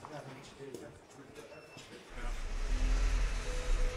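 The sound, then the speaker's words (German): Engine rumble of a rescue fire engine in Hannover pulling out with a four-person crew for a stuck-elevator call. A deep low drone swells louder through the second half, with indistinct voices underneath. “Das Hilfeleistungslöschfahrzeug fährt raus mit 4 Personen Besatzung.”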